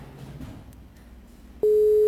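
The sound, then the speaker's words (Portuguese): A telephone call goes unanswered: low, murmuring line noise is cut off by a single loud, steady electronic tone that holds to the end. “Ele não está atendendo o contato não, deve estar acontecendo alguma coisa lá.”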